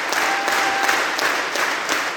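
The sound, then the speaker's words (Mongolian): Audience applause at a Mongolian morin khuur (horsehead fiddle) ensemble concert in a Sydney theatre, a loud, dense roar of clapping from a large crowd with a regular pulse running through it, as if many hands clap in unison. “Энэ бол Сиднейн дүүрийн театрт Монголын морин хуурын чуулга бүрэн бүрэлдэхүүн нэр анх удаа тоглоход нийт үзэгчдийн илэрхийлж байгаа сэтгэл хөдлөл.”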